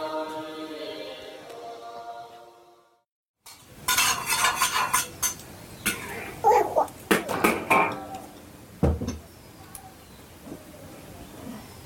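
Utensils clink against pots and dishes while a meal cooks, with bursts of sharp metallic knocks and scrapes after a brief silence; a steady tonal hum fills the opening seconds.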